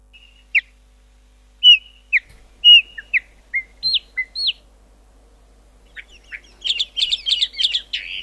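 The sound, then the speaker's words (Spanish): A chalk-browed mockingbird sings clear, whistled phrases separated by pauses, then breaks into a denser run of quick, chattering notes toward the end. “Se escondió el casero y está cantando La Calandria. Se ve que La Calandria está más valiente.”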